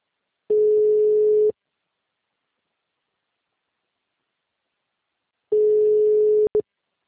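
A steady mid-pitched telephone line tone sounds as two long beeps of about one second each, separated by a silent gap of several seconds, with a faint noisy hiss under each beep and a very short blip after the second.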